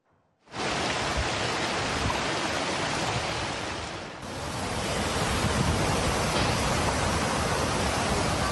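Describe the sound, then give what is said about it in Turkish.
Floodwater from overflowing streams rushes after heavy rain, a loud, steady, unbroken roar of churning water that dips briefly midway and then surges back at full strength. “Dereler taştı, yollar göle döndü. Tarım arazilerinin ve evlerin su altında kaldığı o görüntüler şimdi sırada.”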